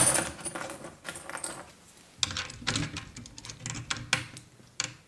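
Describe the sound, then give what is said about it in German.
A bunch of keys and lockpicks jangles and clicks at a locked door, a quiet, continuous stream of small metallic rattles and ticks punctuated by a few sharper clinks. “Für diese Fälle habe ich immer einen Bund Schlüssel und Dietriche bei mir.”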